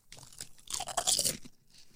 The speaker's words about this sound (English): Foreign Lay's much sturdier than American Lay's. The chip itself.